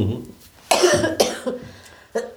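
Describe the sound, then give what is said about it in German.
A person coughs several times in a short series of loud, harsh bursts separated by brief pauses. “So, das wird die Hustenfolge, hoffe ich.”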